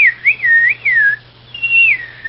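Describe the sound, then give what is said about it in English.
A person whistles a few short phrases, bending the note downward by shaping the mouth. The clear, high tone dips and slides in pitch, with a brief pause before a final sustained whistle that also falls away. “as I pulled my whistle down, as I moved those muscles in my mouth to make the whistle go down, that's how you bend the note.”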